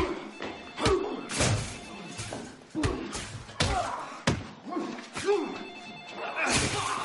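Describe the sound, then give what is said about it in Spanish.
Repeated punches land on a man during a fight in a thriller film: a run of heavy, irregular thuds and slams, loud and punchy, with scuffling noise between the blows. “el sicario le golpea varias veces”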